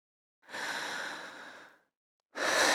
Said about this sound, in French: Respirez fort par la bouche. Encore.